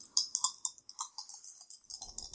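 Dice rolled during a tabletop game, a quick, light rattle of many sharp little clicks and ticks that skitter and settle, fairly faint and heard without voices.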